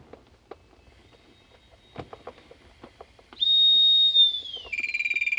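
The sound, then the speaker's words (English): A firefighter's breathing apparatus low-pressure warning whistle, which sounds at 80 bar cylinder pressure: a shrill, loud, steady tone after scattered handling clicks and knocks. It dips slightly as it fades, then turns into a rapid pulsing higher whistle. “That noise there. So that noise is your time of whistle. So that whistle sound when you get to 80 bar pressure in your cylinder.”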